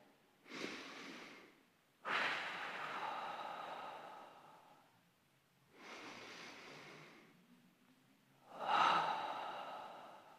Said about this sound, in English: So if everyone could just close your eyes first, I want you to take 2 long, deep breaths.